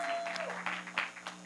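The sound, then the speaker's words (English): Quiet church audience applause, a soft, uneven patter of clapping with a low steady hum, partly under a speaking voice. “You can do a warmer applause for them than that. Come on. Yeah, there we go.”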